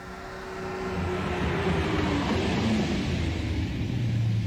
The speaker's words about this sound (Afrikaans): Jaag jy altyd so? Wat bedoel jy, dis mos 'n sportskar?